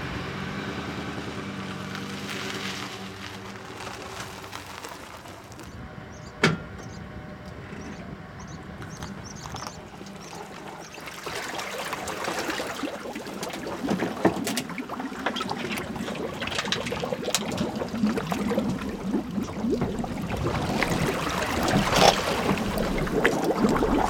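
A vehicle backing a boat down to the water at a put-in to launch it: a steady, rumbling wash of engine and water noise with a few sharp clacks, swelling slightly louder toward the end. No voices are heard.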